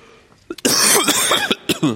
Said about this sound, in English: I'm going to pray that I not cough anymore.